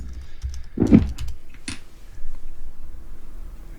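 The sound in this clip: A computer keyboard being typed on as someone writes a chat message: a few short, crisp key clicks, mostly grouped near the start, then a low, steady background.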